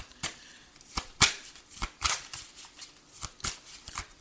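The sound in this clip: Playing cards are dealt one after another, producing a series of crisp, quiet snapping flicks at an uneven rhythm with near silence between them.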